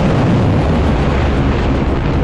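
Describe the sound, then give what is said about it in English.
Cruise missiles launch from Iran with a loud, continuous, rushing roar that stays steady from start to end, with no voices. “Iranian state media released video of what it says are cruise missiles being fired from Iran.”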